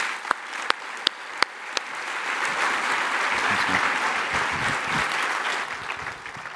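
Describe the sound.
An audience applauds to welcome a speaker home: a few isolated claps at the start build into full, steady applause that stays loud, then thins slightly toward the end.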